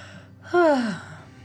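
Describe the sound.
A child yawns once, a drawn-out breathy vocal sound whose pitch slides steadily downward over less than half a second, moderately loud above a low, steady background.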